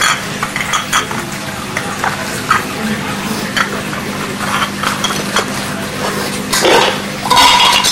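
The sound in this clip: Plates and a lid clatter during play, with scattered light clinks, taps and scrapes of dishes, and a louder rattling burst near the end.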